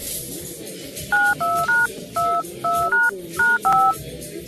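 Telephone keypad tones sound as a number is dialed on a regular phone: eight short, clear two-pitch beeps in a quick, slightly uneven sequence over a faint background hum.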